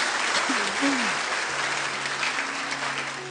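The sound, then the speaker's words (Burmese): Church audience clapping in praise during a Sunday sermon: dense, steady applause running the whole time, with voices rising faintly beneath the clapping. “ဟာလေလုယာလက်ခုပ်တီးလက်ဖျားကိုချီးမွမ်းကြရအောင်အာမင်။”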